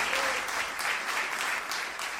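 Audience applause for a performer, with dense, even clapping filling the whole short stretch and no talk over it.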